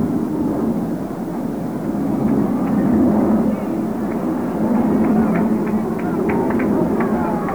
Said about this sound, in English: He calls down and backs out until a plane gets by. Time called because of aircraft.